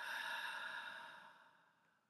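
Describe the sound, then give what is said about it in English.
A slow, soft exhale through the mouth, following a nasal in-breath during a guided breath-awareness exercise. It is one breathy whoosh that fades gradually to near silence, with no talking. “Feel free to do that again with me now, gently in through the nose. And exhale, letting it go.”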